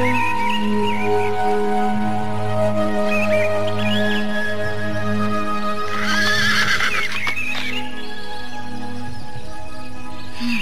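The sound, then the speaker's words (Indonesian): A horse whinnies in a palace courtyard, one loud, high, shaky neigh rising out midway, while hooves clop and a steady low tonal drone runs underneath throughout. “Kelihatannya kuda ini bisa kupakai.”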